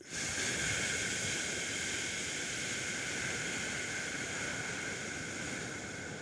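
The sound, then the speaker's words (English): A slow exhale during 2-7-8 breathwork makes a long, steady, breathy hiss that stays even for several seconds and tapers slightly at the end. “So inhale quickly for 2. Exhale slow. 8.”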